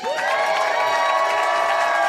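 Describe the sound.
A studio audience cheers and applauds as a guest comes on, a loud, sustained blend of crowd shouting and clapping that stays level throughout.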